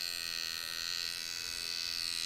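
A tattoo machine buzzes as it is held running, a steady, dense electric drone with a bright high whine that holds level and unbroken throughout.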